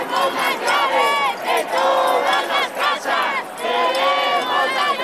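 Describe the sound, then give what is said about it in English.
Crowd at a protest over Spain's housing crisis chanting in rhythmic unison, loud repeated phrases separated by short pauses. “That's what growing anger over Spain's housing crisis sounds like.”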